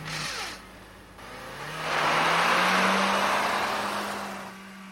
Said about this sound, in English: I think I do three in a row and then handbrake and then pull away.